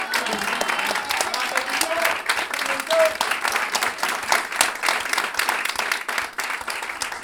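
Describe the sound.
Audience applause at a live variety show with Chilean cueca music: dense, continuous clapping from a crowd lasts throughout at a steady, fairly loud level, with some voices mixed in.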